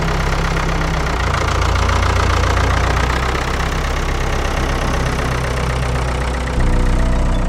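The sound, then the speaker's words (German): Engine of a Mercedes Sprinter van running, a loud, steady rumbling drone that holds evenly throughout with no other sounds. “Gut, ich fahre mit dem Sprinter hinterher.”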